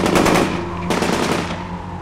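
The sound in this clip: Gunfire from a firing squad behind the Eastern Front at Kharkiv in 1941: a dense, loud rattle of overlapping rifle shots, a second sharp volley cutting in near the middle, then a decaying tail.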